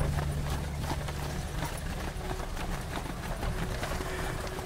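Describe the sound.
Hooves of two horse-drawn chariot teams clip-clop as they cross a ditch and pass through a fortification gate. Many steady hoof strikes run on top of a constant, faint, noisy background.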